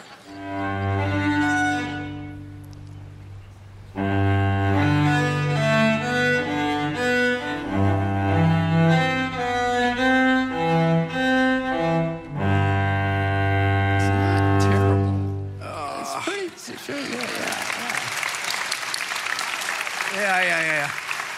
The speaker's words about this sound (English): rendition of Cello Suite. So let's just listen to this.